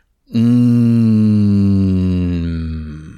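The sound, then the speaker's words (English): A long, slow out-breath voiced as a deep, resonant, steady low tone during a belly-breathing meditation, one sustained hum of about three seconds that holds an even pitch and loudness before tapering off at the end. “So long, slow out breath with that deep resonant sound just for your voice.”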